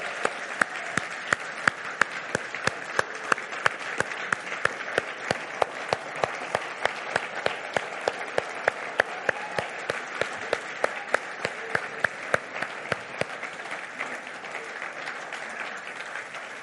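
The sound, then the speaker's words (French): Applause from a church audience giving a standing ovation: dense, steady clapping from many hands that holds even and loud, then thins and stops shortly before the end, with no talk over it. “J'aimerais qu'on puisse offrir une ovation à Dieu qui a transformé ses vies. Est-ce qu'on peut le faire ce matin? Levons-nous.”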